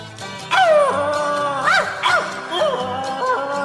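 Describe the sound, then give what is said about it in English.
Dogs barking in a few short, yelping bursts whose pitch bends up and down, heard over a steady, even background sound. “Dogs are barking now”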